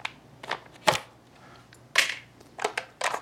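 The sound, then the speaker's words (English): Crinkling and tearing as a fresh pack of chocolate wavy waffle mix is opened, with a few sharp, papery bursts separated by short pauses and no talk. “So boom, you take the waffle mix, open it.”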